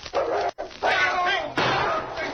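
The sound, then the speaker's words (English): A large, powerful dog barks and snarls as it charges, with a few harsh, loud, rough bursts in quick succession. “The dog's in the next room. Don't go in there. Go get the mutt and be sure you get him.”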